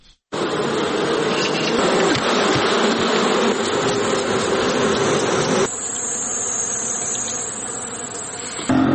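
Honey bees buzz at a bee farm in Helmand province, forming a loud, dense, continuous drone that holds steady throughout and shifts slightly in tone partway through.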